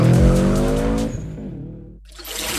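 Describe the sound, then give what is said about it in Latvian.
Autocross race cars at a Latvian championship round skid with a loud engine roar and tire squeal that weakens after about a second, then a short near-silent gap before a broad noise returns. “Latvijas autokrosa čempionāta 4. posms leģendārajā mūsu sporta kompleksā Pauskā. Tiekamies trasē!”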